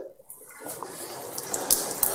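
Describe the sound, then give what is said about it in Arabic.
Tap water runs and splashes as hands are washed during ablution, a soft, steady trickle that grows slightly fuller after the first moment and continues with small irregular splashes. “ولا بد أن تغسل اليد كاملة هكذا تغسل، وإمرار اليد على اليد هكذا هي السنة، هذا يسمى التدليك. لكن لو غسلت يدي بهذه الطريقة مثلا”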